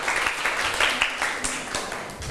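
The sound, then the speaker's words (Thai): Students in a classroom applaud their classmates with a scattered burst of hand clapping. The individual claps are uneven and moderately loud, and the applause carries on without voices. “ถ้าเรียบร้อยแล้วเชิญได้เลยปรบมือให้เพื่อนหน่อยค่ะ”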